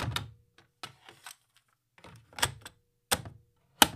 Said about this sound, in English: I have the tape. All right, let's go ahead and load this in the player.